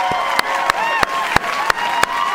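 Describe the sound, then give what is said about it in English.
Applause for a friend starting a new job, heard as about eight sharp, evenly spaced claps in a steady rhythm over a continuous softer background. “And I think we should give her a rousing, rousy applause.”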